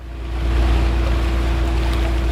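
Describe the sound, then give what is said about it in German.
A small passenger boat motors out of a boathouse on the Königssee lake, its engine a loud, steady low drone with a constant hum. The drone swells in the first half second, then holds even. “Routiniert lenkt Lena Barowke ein kleines Schiff aus dem Bootshaus, steuert es über glasklares Wasser, vorbei an wolkenverhangenen Felswänden und legt am Steg an.”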